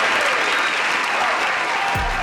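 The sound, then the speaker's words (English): Applause from an audience fills the whole clip as a dense, steady clatter of many hands clapping at a fairly loud level. “Round of applause for me, please.”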